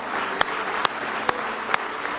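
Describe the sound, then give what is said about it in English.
A church audience claps in praise during a morning worship service. A steady, dense clapping runs throughout, with a few sharper, louder claps standing out at fairly regular intervals. “Give him another hand clap of praise if you love him with all your heart.”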